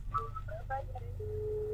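Telephone tones as a studio phone line is picked up for a caller: a quick run of short beeping tone blips, then one steady held tone, all over a low constant hum.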